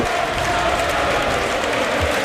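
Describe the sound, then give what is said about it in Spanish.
Football stadium crowd applauding a player as he is substituted off mid-match, a broad, even wash of clapping and crowd noise that holds steady throughout. “se marcha Skelly, aplaude la grada, le aplauden a él y va a entrar Martín Zubimendi.”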